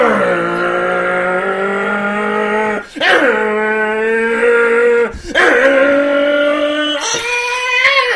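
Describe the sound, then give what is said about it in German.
Car tires squealing under hard braking: a loud, sustained, high-pitched screech with wavering pitch, broken into three long stretches by brief gaps, lasting several seconds with no talk. “gerade habe ich mich noch eingebremst”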